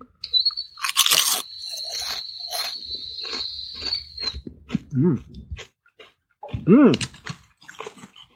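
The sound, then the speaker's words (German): Kettle-cooked potato chips crunch loudly as they are bitten and chewed. The crisp crunches come in irregular bursts, with a thin high tone under the first few seconds and short murmured vocal sounds near the end. “was ist das Besondere an Kesselchips? Erstmal probiere ich das mal.”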